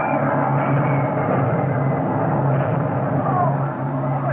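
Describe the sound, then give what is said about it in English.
Japanese bomber aircraft approach with a loud, steady engine drone. Low humming tones hold unbroken throughout. “Here come the Jap bombers.”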